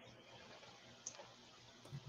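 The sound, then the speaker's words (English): Keyboard typing, heard as a few faint, sparse clicks over a quiet, steady background hum. “So let me type in Brazil and see if that helps.”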